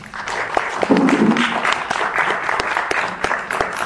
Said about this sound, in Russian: Так что давайте похлопаем ей.